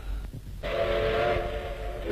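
A steam train whistle sounds at a station beside an armoured train: a steady, hooting tone with a breathy hiss that starts abruptly after a short quieter moment and holds to the end.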